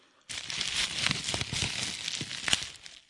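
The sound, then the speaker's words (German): Packaging film, the bubble-wrap kind, popping: a steady crinkling rustle scattered with small sharp pops, moderately loud and continuous for a few seconds. “es ist die Folie, Verpackungsfolie, die so platzt. Ja, so Verpackungsfolie.”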